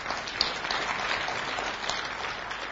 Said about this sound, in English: Yeah, I'll give the Lord a big hand.